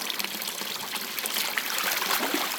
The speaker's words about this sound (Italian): Qui sto lavando la lana per prepararla per la tintura con il colore.